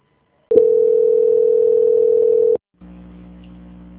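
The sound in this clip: A steady telephone line tone plays during a call transfer. It holds one even pitch for about two seconds, then cuts off and gives way to a quieter, lower hum.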